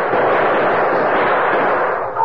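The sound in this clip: Gunfire from a shootout on a dark street by a bank: a dense, continuous roar of shots with no separate bangs standing out, holding a steady loudness throughout.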